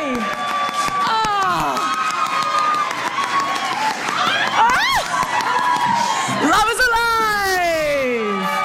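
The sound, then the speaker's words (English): Audience cheering and applause celebrating two women matched for a date, with loud, continuous clapping and high, excited whoops and shrieks rising and falling throughout. “Give it up for Brooke and give it up for Lizzie.”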